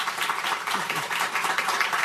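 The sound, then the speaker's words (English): Applause from an audience thanking a speaker after a discussion on agency work and privacy: a dense, steady wash of many hands clapping, holding an even level without a break. “Let's give David Reddle a round of applause.”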